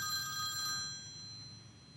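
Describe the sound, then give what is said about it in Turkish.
A work mobile phone rings with bright, steady electronic ringtone tones, loud for about the first second and then fading out, leaving only a low background rumble with no voices. “Şey, telefon çalıyor galiba. Rica etsem bakar mısın?”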